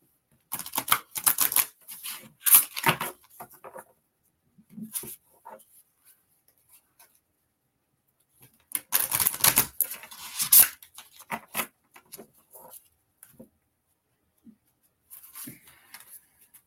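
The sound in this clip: Oracle cards being handled and shuffled, with two longer stretches of rapid riffling and flicking, the later one louder, separated by softer scattered taps and rustles.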